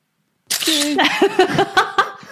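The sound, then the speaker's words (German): A passport-photo booth camera fires with a sharp onset, then a few short clicks mixed with tonal electronic sounds, fairly loud. “Natürlich, also wenn 3, 2, 1 kommt, dann denke ich nach der 1, okay, Foto ist geschossen.”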